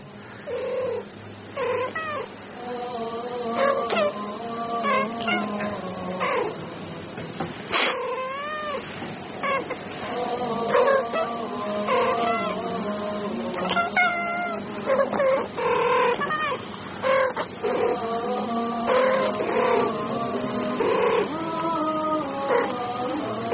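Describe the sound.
Two cats meow back and forth continuously, as if talking to each other. Many drawn-out, wavering meows and yowls rise and fall in pitch, overlapping and answering one another with no talk over them.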